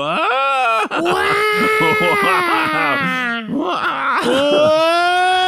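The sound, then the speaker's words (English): A baby cries and wails loudly. Long, strained, high-pitched wails run almost without pause, broken only by brief catches of breath. “That poor little baby has found another gear and is crying, just wailing now.”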